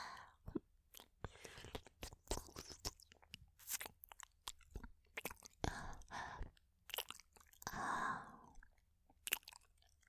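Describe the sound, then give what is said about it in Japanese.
Wet, sticky mouth sounds of chewing inside the mouth, thick with saliva: many soft clicks, smacks and squelches come in an irregular stream, close and quiet, with no speech. “お口の中の音。”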